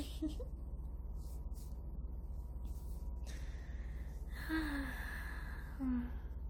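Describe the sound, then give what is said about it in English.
Breath blown close to the microphone during an ASMR role-play: soft, airy puffs and exhales in several separate bursts. A faint voiced murmur surfaces near the end. “Oh, sorry. Is my breath giving you tingles? Oh, I didn't mean to.”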